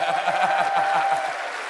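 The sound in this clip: Audience applause for a guest in the crowd, a dense steady wash of clapping with crowd voices mixed in, fading slightly toward the end.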